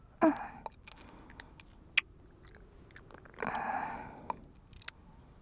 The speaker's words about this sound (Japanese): お前さんの耳を口に含んでやろう。